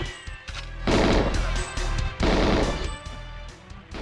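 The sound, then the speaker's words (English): Gunfire from the video game GoldenEye comes as two long, loud bursts of rapid shots, with quieter stretches between and around them. “here you can hear that a little, he's shooting.”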